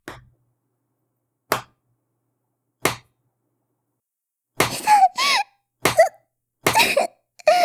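A walking stick strikes someone: three sharp, isolated cracks at even intervals, followed by several bursts of pained vocal cries.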